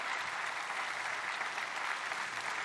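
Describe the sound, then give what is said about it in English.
Applause from an audience congratulating performers: a steady, dense patter of many hands clapping throughout, fairly soft and without voices. “Well, let's congratulate all of these guys one more time, shall we?”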